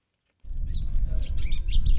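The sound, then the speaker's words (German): Birds sing outdoors beside a North Sea dike. Many short, high chirps and trills overlap in a busy, continuous chorus above a strong low rumble, starting abruptly after a moment of silence. “Draußen, direkt am Nordseedeich in Friedrichskoog, singen die Vögel.”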